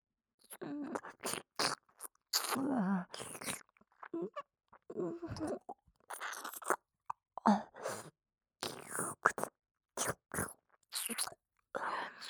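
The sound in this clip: Wet ASMR ear-eating mouth sounds with chewing, many short irregular smacks, plops and clicks in quick clusters separated by brief pauses, fairly close and soft.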